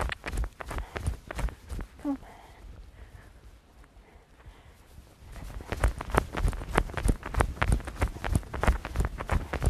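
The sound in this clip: Hooves of a horse trotting: a mare with bruising on a hind leg who is not moving with her usual proper trot. The hoofbeats form a steady, rapid clip-clop that fades during a quieter middle stretch, then returns louder and denser.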